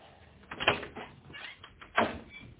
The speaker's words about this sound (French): On frappe.